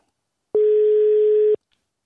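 Ringing tone of an outgoing telephone call, a single steady buzzing tone about one second long, loud and alone against silence.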